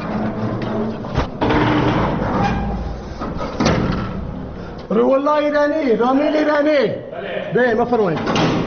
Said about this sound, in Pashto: د هرات د زندان یو ساتونکی د دغه محبس اوسپنیزه دروازه خلاصوي